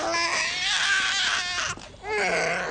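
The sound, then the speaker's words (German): Incessant wailing of a newborn baby boy: loud, high, strained cries with hardly a break and a short dip in volume near the end before the crying starts again. “Saga und John haben offenbar ein Schreikind zur Welt gebracht. Es hört und hört nicht auf.”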